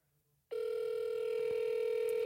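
A ringback tone on an outgoing call to a doctor's office. After a short near-silence, a steady, low electronic tone starts abruptly and holds without a break to the end.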